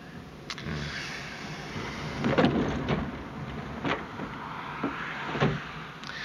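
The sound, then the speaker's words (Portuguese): A car drives on a flat tyre in a 1970 New York scene, a steady road hum broken by repeated dull thumps at irregular intervals. “O que é que tá batendo? Ah, que droga. É só um pneu. Pneu furado.”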